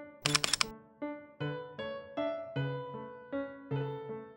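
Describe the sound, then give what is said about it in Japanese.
A camera shutter fires for a commemorative photo, a quick, sharp cluster of a few clicks, followed by a series of soft, ringing musical notes. “ねえ、記念にさ、一緒に写真撮ろうよ。 なんだよ、しょうがねえな。 よし、じゃあ撮るよ。チーズ。”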